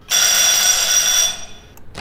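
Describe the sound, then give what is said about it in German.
Emergency night bell of a pharmacy rings as one loud, bright, sustained electric ring lasting about a second and a half, then cuts off, followed by a short soft rustle. “In der Nacht von Dienstag auf Mittwoch um 23.47 Uhr klingelt die Notdienstglocke der Vinzenz-Apotheke in Stuttgart-West.”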